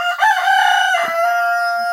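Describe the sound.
A rooster crows once, a loud, harmonic call held for about two seconds with a slight break near the middle.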